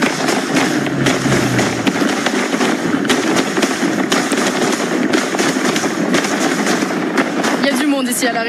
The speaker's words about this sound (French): Il y a un feu d'artifice comme ça.